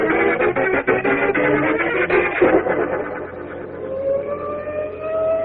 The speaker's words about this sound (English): Look at all those sirens.